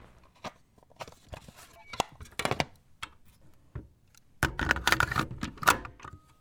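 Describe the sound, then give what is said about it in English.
Clicks, taps and clatter of a tape being taken off and a new one threaded in: scattered sharp knocks at first, then a denser burst of rustling handling noise. “How long do you think it takes the average person to take off one tape and thread in a new one? Let's find out. Ready, set, go.”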